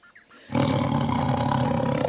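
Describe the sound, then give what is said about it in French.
A tiger lets out a deep, powerful roar that bursts in abruptly after a short quiet stretch, then holds loud and rumbling, rich in low growl, until the end. “a rugi soudain le tigre, si fort que le chat en a eu la queue hérissée et que toute la forêt a tremblé.”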